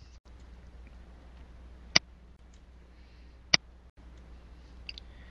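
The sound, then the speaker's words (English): Two sharp computer mouse clicks on a share button while publishing a social media post, about a second and a half apart, each brief and crisp over a faint steady hum. “And click the share button to publish your post.”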